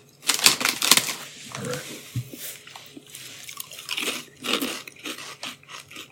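Crisp crunching of honey jalapeno snack chips being bitten and chewed: many irregular, sharp, crackly crunches, loud and close, with no talk over them.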